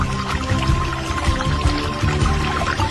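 Clear water pours in a steady, loud stream, with continuous splashing and gurgling throughout.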